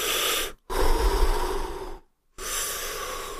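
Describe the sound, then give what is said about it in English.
Deep human breathing during a seated, lotus-position meditation demonstration: long, loud, airy breaths in and out, broken by two short silent pauses where the breath is held before being released. “I'm holding that breath full right now. My spine straightens out just like it should be when you do the lotus position.”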